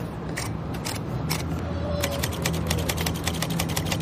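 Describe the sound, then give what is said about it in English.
Clattering keys of a Smith Corona Skywriter, a small portable typewriter from the late 1950s or early 1960s built to fit an airplane tray, typing in a quick, uneven run of many crisp clicks over background noise. “This is a Smith Corona Skywriter. So they designed these in the late 50s, early 60s. They're specifically designed to fit on an airplane tray.”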